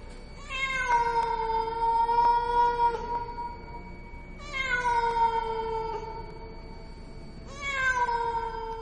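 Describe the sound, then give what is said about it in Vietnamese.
A cat meows mournfully in three long, drawn-out wails, each rising and then sagging in pitch. The calls are loud and clear, separated by short pauses, with no other voices. “con mèo bắt đầu cất lên tiếng kêu não nùng.”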